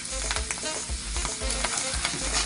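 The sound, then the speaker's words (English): About a tablespoon of tomato paste frying in hot oil, sizzling steadily with scattered pops and splattering crackles throughout. Loud and continuous, with no voices. “It's gonna pop and splash because oil and water don't mix. Don't get excited. So then I'm gonna add in my tomato paste.”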